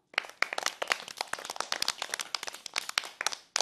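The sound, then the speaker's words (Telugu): An audience claps after a poem recitation: many scattered, crisp hand claps overlap unevenly and keep going without pause. “మరొక్కసారి claps కొట్టండి.”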